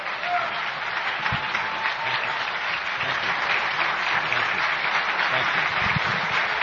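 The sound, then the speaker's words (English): An audience at a political event gives sustained applause for Senator Mark Kelly and Congresswoman Gabby Giffords, dense, steady clapping that continues evenly from start to finish. “Guys, give it up again. Give it up again for these two American heroes, Senator Mark Kelly, Congresswoman Gabby Giffords.”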